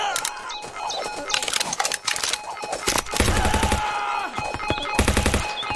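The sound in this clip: Machine gun fire in a video game, loud rapid bursts of automatic shots amid other busy game sounds.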